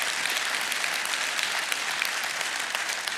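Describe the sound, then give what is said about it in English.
An audience claps in dense, steady applause that holds at an even loudness for the whole stretch, with no voices over it. “you heard that clap”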